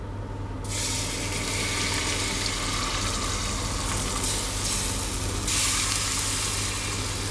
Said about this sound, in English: Can you hear it sizzling? You can see it's beginning to cook. Put the Yorkshire puddings in the oven.